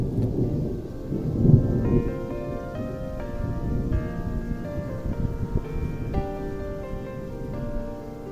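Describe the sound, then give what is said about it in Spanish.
A summer thunderstorm with rain: low rolling thunder over steady rainfall, with a louder rumble early on and sustained tones running through the rest. “El enojo con esas tormentas de verano que acaban siempre en un plácido día.”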